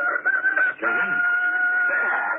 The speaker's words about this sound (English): I told you it was a rooster, Captain.